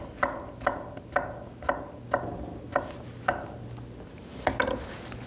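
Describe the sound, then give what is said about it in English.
A knife finely cubes avocado for a corn and pepper salad, making a steady series of crisp, evenly spaced chopping taps, with a quick double tap near the end. “So just really finely cube it, just to match the theme of this dish. It's not a chunky salad, it's a very fine salad with the corn and the peppers. So try and keep this really fine.”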